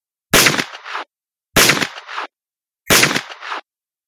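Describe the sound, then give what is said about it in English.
Three loud gunshots from a man firing as he runs toward his target from behind a bunkhouse. Each is a sharp crack with a short rumbling tail, spaced evenly about a second and a quarter apart, with silence between. “The last brother came running from behind the bunkhouse towards Buck in a blind rage, firing as he came.”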